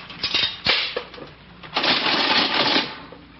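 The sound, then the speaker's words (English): A penny drops into a coin-operated weighing scale with a few metallic clinks, followed by a longer, steady mechanical rattle and whir from the machine. “I think I'll step on these scales here and see if I've lost any weight. Here's a penny.”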